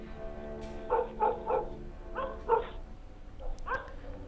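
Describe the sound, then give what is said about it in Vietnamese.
Dogs barking across a field at night by a dark, moonlit country road, heard from a distance: several hollow barks in loose, irregular groups, moderately loud over a faint steady background. “Thỉnh thoảng có nghe tiếng chó sủa vu vơ ở đâu đó, văng vẳng như là tiếng chó cân ma ở bên kia cánh đồng.”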